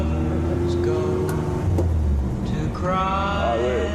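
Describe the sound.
A vintage Volkswagen Beetle is driven slowly, its engine giving a low, steady rumble beneath people talking.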